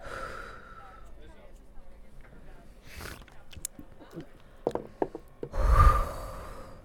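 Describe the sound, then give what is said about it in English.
A forceful, breathy exhale bursts out loudly near the end, part of a bartender's breathing trick for keeping the mouth free of oxygen. Quieter rustling and a few small clicks come before it. “All right, so, all right, ready? All right, so breathe out.”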